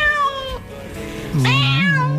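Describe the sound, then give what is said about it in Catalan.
Cats meowing: a drawn-out, tonal meow is followed by a louder, higher one that wavers in pitch before settling. The cries are clear and prominent, with no talk over them. “Aquests miolen. Miolen, molt bé.”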